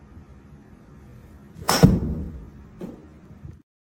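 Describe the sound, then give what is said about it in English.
A recorded golf club swing played back twice: a strong, sharp whoosh followed about a second later by a fainter second swish. “Okay, ready? Here comes the second swing. I'm going to play it twice.”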